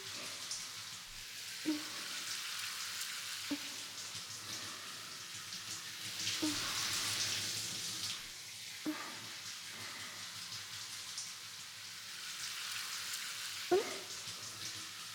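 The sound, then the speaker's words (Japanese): Water runs steadily as hair is rinsed, fingers stroking it upward through the hairline, the back of the head and behind the ears. A continuous soft hiss carries a few brief, louder splashing rubs. “全部きれいに流れるよ。隅々まで指でなで上げながらしっかりと流してあげますからね。”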